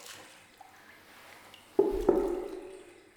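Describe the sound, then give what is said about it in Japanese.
Water being scooped up to cool it before hair washing: after a quiet stretch, two soft splashy swishes follow each other closely and trail off, with no talk. “もう一回すくって冷ましておこう。”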